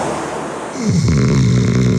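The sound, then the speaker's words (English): Heavy snoring from a man: after a quieter, noisy stretch, one long, rough, low snore swells in at about the midpoint and continues steadily and loudly to the end. “Is his snoring getting boring?”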